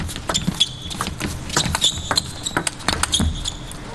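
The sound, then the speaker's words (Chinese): A table tennis ball clicks sharply off paddle and table during a backhand serve in a match, a quick scattered series of light, hollow taps. “王曼玉换反手发球”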